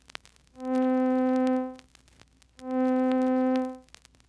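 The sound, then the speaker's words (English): A middle C tone sounds twice, each time swelling in slowly, holding for a long sustain and fading away gradually. The tone is steady, rich in overtones and loud, with a short quiet gap between the two notes. “Taking the same note with which we have been working, the middle C, we find that slow growth, long duration, and slow decay give it a sound like this.”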